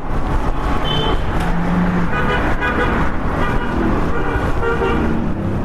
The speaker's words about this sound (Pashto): دلته د خلکو او موټرانو ګڼه ګوڼه ده.